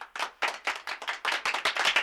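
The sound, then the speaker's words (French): Applause after a speech at a striking workers' meeting: a sparse run of hand claps in uneven, loosely timed bursts, fairly faint, with no voices. “Tandis qu'on applaudissait le discours de Pluchart”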